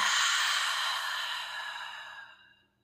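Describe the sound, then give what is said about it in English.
A single deep breath is exhaled out through the mouth, a long breathy whoosh that holds steady and then tapers into silence, heard alone. “And then take a nice big breath. Send your inhale down to your low belly, low back. Expand three-dimensionally. And exhale out the mouth.”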